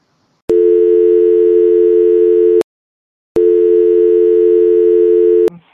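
While a call is being added, a telephone line gives two long, steady mid-pitched tones, each about two seconds long, with a brief silence between them. The tones are loud and heard alone.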